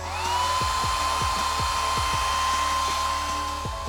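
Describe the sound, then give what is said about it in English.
Hair dryer blowing continuously, a loud, steady whirring rush of air with a sustained high whine running over a low hum from start to finish. “Maybe you even just blow-dried your hair.”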